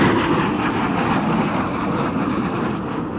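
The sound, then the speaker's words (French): Deep, loud roar of a US AWACS military aircraft taking off at night from a military air base in Riyadh, a broad, steady engine rumble that holds without pause throughout, with no voices. “Le silence de la nuit déchiré par un énorme vrombissement. Le premier AWACS américain vient de décoller de la base aérienne militaire de Riyad.”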